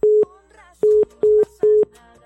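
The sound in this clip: A telephone disconnect tone sounds as an incoming call is cut off: four short, steady, mid-pitched beeps of equal loudness, the first standing alone and the other three following in a quicker, even run, with no talk.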